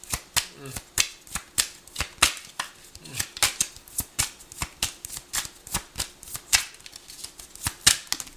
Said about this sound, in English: Can we have another card, please?